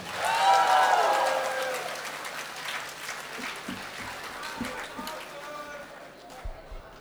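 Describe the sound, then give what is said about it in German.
Audience applause for performers at a live stage show, a dense patter of clapping that is loudest at the start and then settles to a steady level, with voices and shouts mixed in. “Ein Applaus für den Daniel. Ein Applaus für den Michael. Ein Applaus für Acid.”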